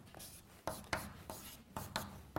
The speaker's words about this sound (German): Ich schreibe das einmal an die Tafel, ist ein Säureamid. Vielleicht schreibe ich an der Tafel ganz allgemein einmal auf,